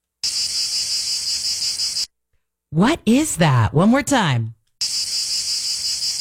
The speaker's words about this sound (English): Cicadas? Yes. The cicada, right? That sound at night.